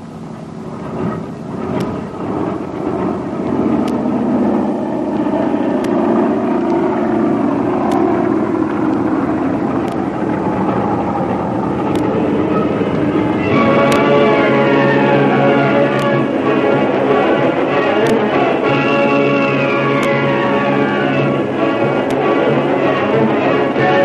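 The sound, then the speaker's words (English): Jet engines roar as a big passenger airliner takes off from a long concrete runway. The rumble is loud and sustained, and whining tones rise in pitch during the second half. “The long concrete runway, up into the air, the big passenger airliner takes off on the first leg of its eventful journey southwest”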